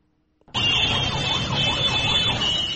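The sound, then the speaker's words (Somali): A vehicle horn wails in a traffic jam on a main road in Mogadishu. It starts abruptly, then holds as a loud, continuous, wavering siren-like blare. “hoonka gaadiidka kala duwan ee aad maqlaysaan waa ciriiri ka taagan mid ka mida wadooyinka halbowlaha u ah isu socodka dadka iyo gawaarida Muqdisho”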